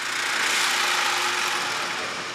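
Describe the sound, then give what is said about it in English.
A saw cuts through a beef carcass, splitting it in half: a loud, steady grinding hiss with a faint low hum underneath, continuous and unbroken throughout, with no voices. “Workers remove organs and the spinal cord, then cut the carcass in half with a saw.”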